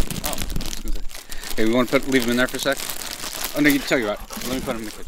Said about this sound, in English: What you just heard is me removing two large Ziploc bags full of microcassette tapes.